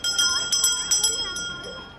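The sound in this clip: Hand bell rung at a school to end recess: a quick series of bright metallic clangs in the first half, then lighter strikes that fade out.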